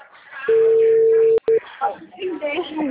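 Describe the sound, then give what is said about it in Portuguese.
Phone line tone as a call drops: one long, steady mid-pitched beep, a brief break, then a short second beep, followed by a person talking. “a ligação caiu?”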